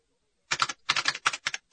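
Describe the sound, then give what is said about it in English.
Keys tapped on a handheld datapad, a rapid series of crisp, clicking taps that fall in short clusters, heard on their own without voices. “With the tap of a couple of keys on his datapad, Wedge Antilles”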